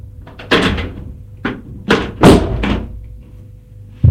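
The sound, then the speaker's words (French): A cupboard opens and a bottle and glasses are taken out: a few sharp knocks and thumps at irregular intervals, with a final bump at the very end and quiet gaps between. “Benoît ouvre un placard et sort une bouteille et des verres.”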